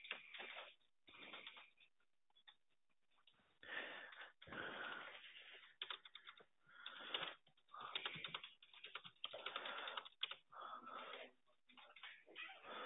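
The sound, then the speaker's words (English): Faint typing on a computer keyboard as notes are entered, with many quick keystrokes in uneven bursts and brief pauses between runs. “1 second, while I just type up the notes to read the one moment.”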